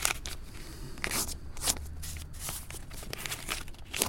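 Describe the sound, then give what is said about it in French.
A white sheet of notebook paper is ripped out and cut into smaller and smaller pieces with scissors. Crisp tears and sharp snips come in a quiet, irregular series. “Il déchire d'un cahier une feuille blanche. Il la coupe en deux, puis encore en deux, et ainsi de suite, jusqu'à avoir un tout petit bout de papier.”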